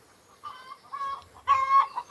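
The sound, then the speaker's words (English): Hens cluck near a field by an allotment fence, with a string of short, throaty, rhythmic clucks that grow a little louder toward the end. No one speaks over them. “as you can hear, because the hens are clucking. They can see me now over the allotment through the fence,”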